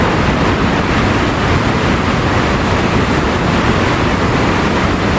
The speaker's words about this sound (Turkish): Görüntüler Arjantin'le Brezilya sınırındaki Iguazu şelalelerinden.